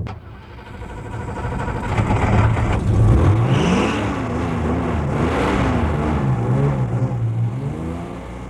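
A Unimog truck's engine drones loudly and continuously while driving; its pitch climbs and wavers midway, then settles into a steady hum.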